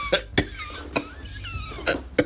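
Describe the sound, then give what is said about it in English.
A man coughs violently: several sharp, harsh coughs burst out in an irregular series with short gaps between them. The coughing is loud and heard alone, with no talk. “he started to cough violently again”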